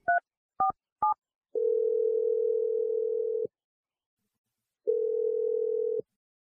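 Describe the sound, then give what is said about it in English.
A telephone is dialed: three short keypad tones, then two long steady ringing tones separated by a pause of silence. No one speaks. “I'm going to dial Naomi right now, and hopefully she picks up.”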